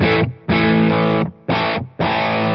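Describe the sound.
Distorted electric guitar through an amp's second, dirty channel with boost engaged and reverb off, played as four loud, sustained chord bursts separated by brief gaps, with no voices.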